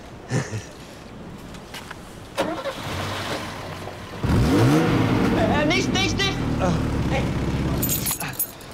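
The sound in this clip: A car engine being started after a spark-plug fix: a cranking lead-in, then the engine catches and holds a steady, loud running rumble for the last few seconds, with people talking before and over it.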